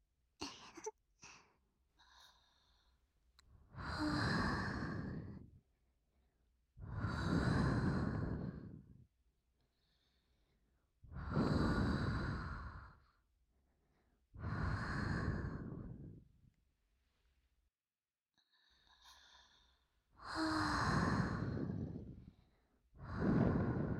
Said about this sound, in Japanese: ゆっくり呼吸をせよ。そうじゃ。